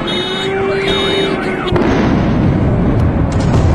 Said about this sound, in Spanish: la banda sonora, la trágica banda sonora, en muchos lugares del mundo, la ponen las bombas.